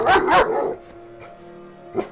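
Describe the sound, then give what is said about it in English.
A large dog barks aggressively near a house on a spring night: two loud, harsh barks in quick succession, a quiet pause, then a third, softer bark. “Yards from the main house, a large dog stood up and barked with fierce aggression.”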